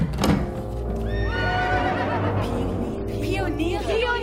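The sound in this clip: A horse neighs in a drawn-out, wavering whinny that falls in pitch, followed by further shorter whinnying calls over a constant low background noise.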